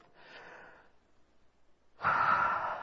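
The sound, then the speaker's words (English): Deep breaths are drawn in and let out as airy, breathy rushes: one moderate breath, a pause, then a second, louder and fuller breath that holds to the end. “So, take a deep breath. Come on. And another one.”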